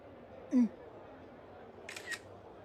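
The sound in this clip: A camera shutter fires while taking a photo of a mountain view. Two quick, faint mechanical clicks land close together against a quiet outdoor background.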